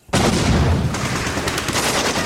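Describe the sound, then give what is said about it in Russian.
Bandits open fire from a ruined building during a shootout. A sudden loud onset leads into a dense, continuous barrage of gunfire, with sharper rapid bursts toward the end. No voices are heard. “И тут же из разрушенного здания бандиты открывают бешеный огонь. Начинается перестрелка.”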